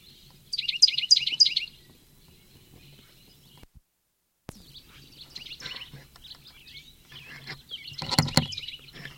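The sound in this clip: A bird is calling, first with a quick run of high, thin chirps, then more scattered, varied chirps. A louder burst of noisy sound comes near the end over a faint low hum.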